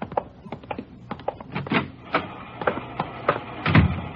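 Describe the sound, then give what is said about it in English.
An IBM punch card sorting machine runs, giving a rapid, irregular clatter of sharp mechanical clicks and taps that continues steadily throughout with slight swells in loudness. “She's running all the cards on previous shooting through the IBM machine. She ought to be through about now.”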